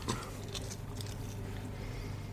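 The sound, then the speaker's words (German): Faint crunching as crisps dipped in tzatziki are bitten and chewed, a few soft crackly bites over a low steady hiss, with no talk. “Wir machen Tasting. Ich weiß natürlich, das schmeckt geil, weil hm. Leute, dippt eure scheiß Chips in Tzatziki.”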